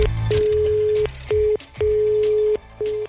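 Telephone line tones sound as a call is placed: a steady, low, pure beep repeats in a few pulses of uneven length, some long and some short, over busy background sound.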